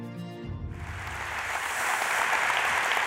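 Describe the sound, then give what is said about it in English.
Applause from a church audience welcoming a pastor starts just after a voice trails off, then swells into dense, steady clapping that grows slightly louder and holds to the end. “So I want you right now at all of our campuses to put your hands together and join me in welcoming Pastor Ryan Kwan.”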